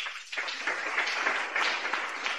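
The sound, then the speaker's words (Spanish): Applause from a Pentecostal church audience during a Monday service: dense, sustained clapping at a steady loudness with no clear breaks, heard alone without talk. “¡Aplauso para Cristo Jesús!”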